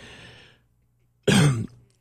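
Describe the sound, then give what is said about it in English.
A single hard, rough cough from someone whose sip of coffee went down the wrong way, loud and abrupt after a faint breathy sound and a moment of silence. “Took a sip of coffee and it went down the wrong tube”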